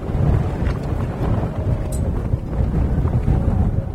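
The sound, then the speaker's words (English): Cool wind blows across an undulating Mongolian plain and batters the cloth walls of a yurt, a steady, dense, low rumbling roar with slight buffeting throughout. “1,300 miles northwest of Seoul, a cool wind blows across an undulating Mongolian plain and batters the cloth walls of a yurt”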